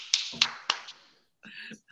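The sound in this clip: Person clapping hands: three quick, crisp claps at an even pace, followed after a short pause by a brief voiced sound.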